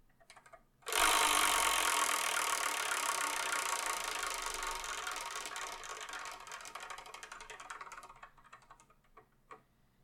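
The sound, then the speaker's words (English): The Wheel of Manga prize wheel spins with a fast, rattling stream of clicks that starts abruptly, then gradually fades and slows, ending in a few sparse, separate ticks. “So we're going to use it to spin this one, this only, the Wheel of Manga. Whatever number it lands on, that's what we're going to review in the next episode of the Sparkin' Manga Review, episode 472. So let's spin and see what we're going to review in the next episode”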